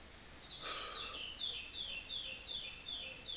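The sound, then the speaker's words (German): Birds sing outdoors in a faint, quick series of short, high chirps. The notes repeat at an even pace over a low background hiss. “Und die Vögel interessiert das alle nicht. Pfeifen trotzdem.”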